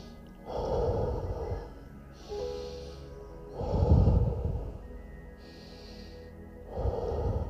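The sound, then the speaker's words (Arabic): Slow, deep breathing as part of a guided calming exercise: steady alternating inhales and exhales, with about three full breath cycles. Fuller, rushing breaths alternate with softer airy ones at a regular, unhurried pace, and no voices are heard. “ايوه ايوه شهيق زفير شهيق زفير انا مستنيك”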